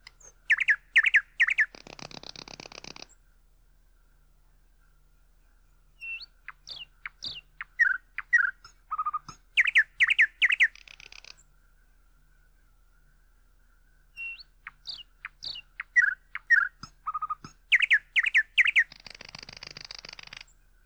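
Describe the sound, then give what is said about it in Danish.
A nightingale singing in three bursts of varied high-pitched song, with quick chirps, whistled notes and buzzy trills, each phrase set apart by a few seconds of quiet. “Nattergal.”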